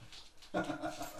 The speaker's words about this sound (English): My dog looks shaken.